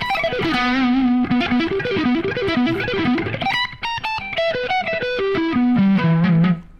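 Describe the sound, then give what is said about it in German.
Distorted electric guitar shreds through a vintage shred amp preset on a cold, unwarmed amp that lacks gain, playing fast, loud runs of single notes that climb and drop, ending on a sustained held note with no talk. “Ja, ist ein guter Vintage-Shred-Sound tatsächlich.”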